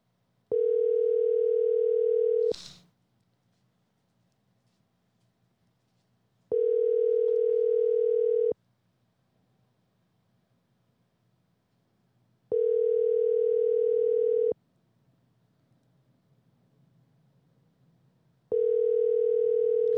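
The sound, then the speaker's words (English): Four steady, low, buzzing telephone ringback tones while a call waits to connect. Each lasts about two seconds, with roughly four seconds of near-silence between them. “let's call Justin. Justin, hey. We're just going to try it out. He's not going to answer.”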